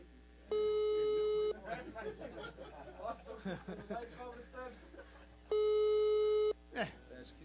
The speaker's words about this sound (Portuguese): Bom, mas é um bom sinal, tá chamando.